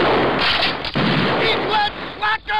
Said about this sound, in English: a car comes by and does a drive-by. Yo, Strickland! And, yeah, and just shoot it out like, goddamn, what happened to just egging a guy's house? Fuck. Or teepee. But they shoot it up and he gets distracted by firing back.